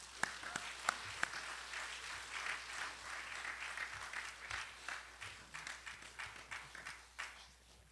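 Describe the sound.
An audience applauds to welcome a speaker, with many hands clapping in a steady, fairly faint patter marked by a few sharper claps, then thinning into more scattered claps toward the end.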